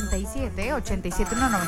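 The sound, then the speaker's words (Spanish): A telephone rings in a radio studio booth: a brief, bright ringing tone mixed with a voice. “Teléfono en cabina”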